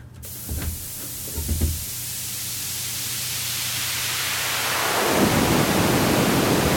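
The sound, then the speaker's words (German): Synthesized thunderstorm built from filtered noise: a steady hiss with a couple of low rumbling swells early on, the noise gradually filling out and growing slightly louder toward the end. “Immer noch ein leichtes Gewitter drin.”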